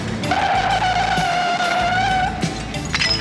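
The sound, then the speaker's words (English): A car drives down an industrial alley and comes to a smooth stop, a loud steady whine from the moving car that cuts off after about two and a half seconds, followed by brief clattering. “Very smooth stop, Joel.”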